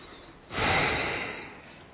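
A single long out-breath during a seated breathing exercise: a soft, airy rush of breath that swells sharply, then slowly fades over about a second and a half, heard alone with no talking.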